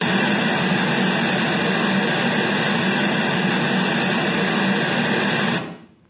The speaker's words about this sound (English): I'm going to run these. This is a periodic noise rather than a log sign sweep.